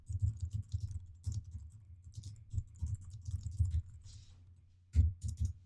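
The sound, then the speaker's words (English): Keys clatter on a computer keyboard as a line of text is typed, with many quick, irregular clicks in short bursts separated by brief pauses. The typing is fairly quiet, and nobody talks. “I'll just type in the opening line to one of my favorite songs.”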